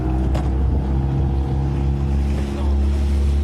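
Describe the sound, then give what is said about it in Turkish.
Steady engine drone of a motorboat crossing the Bosphorus, a continuous low hum with layered harmonics and light wind noise, holding an even level throughout. “Şüphelinin suya düştüğünü gören ve o sırada denizde bulunan iki kişi botla olay yerine hareket etti.”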